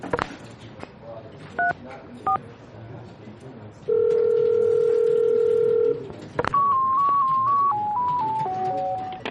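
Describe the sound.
Telephone tones as an office call is transferred to the accounting department: two brief dialing beeps, a steady electronic tone lasting about two seconds, then a run of stepped electronic tones, all over a constant murmur of background voices.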